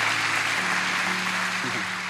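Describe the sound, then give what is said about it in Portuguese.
Applause from an audience at a live church service, a steady, dense wash of clapping throughout, with no break or clear fade. “seja muito bem-vindo, receba as nossas palmas, por favor.”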